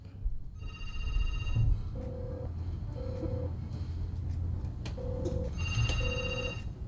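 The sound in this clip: Ringback tone of an outgoing telephone call: two pairs of short, steady mid-pitched beeps with a pause between, heard faintly over a noisy line with a low background hum.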